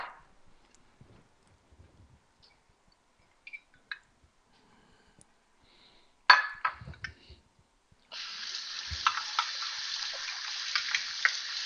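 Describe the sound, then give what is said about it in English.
Tap water runs steadily as measuring cups are rinsed while cooking, a continuous hiss filling the final few seconds after a burst of light clatter and clicks. “So I was just rinsing out my measuring cups here.”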